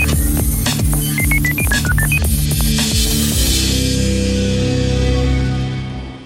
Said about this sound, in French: Allez, on essaye, la régie compose le numéro.